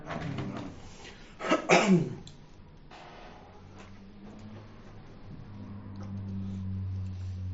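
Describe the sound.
A speaker with an allergy clears their throat in a brief, rough two-part burst, loud against an otherwise quiet background with a low hum.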